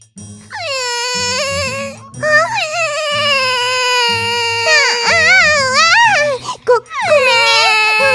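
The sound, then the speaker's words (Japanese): A child cries loudly in long, wailing sobs whose pitch swoops up and down, broken by short gasping pauses. “ごめん、返すから泣きやめ。”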